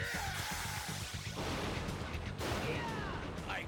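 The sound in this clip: Blade blaster fire in a video game: a rapid, rhythmic string of punchy low blasts gives way to a dense, continuous roar of weapon noise that stays loud throughout.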